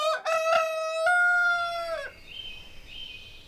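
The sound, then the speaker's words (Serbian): A rooster crows loudly in one long crow with a stuttering, broken start. The crow holds a steady, bright pitch, then drops at the end and gives way to faint, thin background tones. “E, pa priča počinje tako što jedan pevac glasno za kukuriče.”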